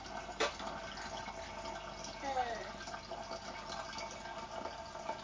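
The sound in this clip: Water runs into a bottle being filled for watering plants, a steady rushing pour that continues for the whole stretch, with faint voices underneath.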